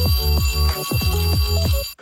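A telephone rings on a call to emergency services, a loud electronic ring repeating in quick warbling bursts with a brief cut-off at the end.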